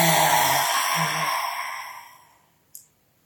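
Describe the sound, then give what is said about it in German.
A long, forceful exhale through a wide-open mouth with the tongue stuck out. It starts breathy with a low voiced tone, then fades over a couple of seconds and ends with a single short click. “Und mit geöffnetem Mund auszuatmen und die Zunge rauszustrecken und einen Ton zu machen. So einatmen durch die Nase. Ausatmen.”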